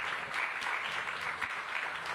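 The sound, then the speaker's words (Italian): An audience claps at the Festa dell'Unità political festival, a fairly soft, steady patter of applause that fills the whole moment without cheering. “Va bene che siamo alla festa dell'unità, però questo strappa l'applauso”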